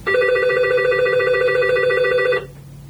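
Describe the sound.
A telephone rings once: a loud, sustained electronic trilling tone lasts a little over two seconds on its own, then cuts off abruptly.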